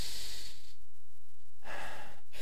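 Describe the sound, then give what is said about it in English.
A big, deep breath taken in the morning: a long, airy hissing inhale, a quiet pause, then a long, breathy exhale, with no talking. “All of us, I want you to take a big, deep breath this morning. One, two, three.”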